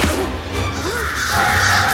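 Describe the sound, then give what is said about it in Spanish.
Crows cawing in trees: a couple of harsh, rasping caws set against a dense, steady rushing background. “Los cuervos se mueven inquietos en los árboles.”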